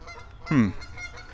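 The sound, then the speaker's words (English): A goose honks once, a short nasal call from a small group of agitated geese near a boardwalk blind, fairly quiet against low steady background noise. “But these geese are, well, basically having a cow out here.”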